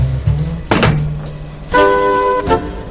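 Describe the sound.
A boiling kettle is lifted off the stove with a solid thunk, followed by a brief high tonal sound.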